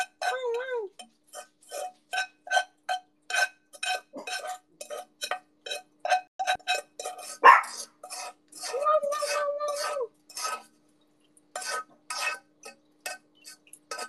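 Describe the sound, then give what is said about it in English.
Sand being scraped out of a glass vase: many short, sharp scraping and clinking strokes in a quick, uneven rhythm, with one louder scrape near the middle and a pause before a final burst of strokes. “I'm just scraping all the rest of the sand out.”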